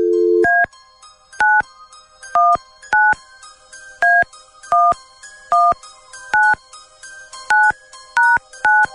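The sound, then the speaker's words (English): Touch-tone dialing of a telephone number: a short steady dial tone, then a long run of crisp, evenly spaced two-tone beeps. Each beep is brief and clear, with short silent gaps between them and no talk. “All right, here we go. Dialing at random.”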